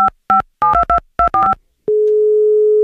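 A telephone places an outgoing call: a quick run of short electronic keypad beeps gives way to one steady, continuous tone.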